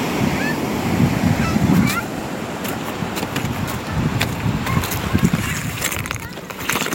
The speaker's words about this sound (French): Voici donc son journal de bord sonore en bord de mer.